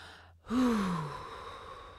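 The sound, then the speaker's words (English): A single deep breath let out as a long sigh during a guided breathing exercise. The breath starts after a brief silence, with a voiced tone sliding downward as the breathy exhale gradually fades. “Take three more deep breaths.”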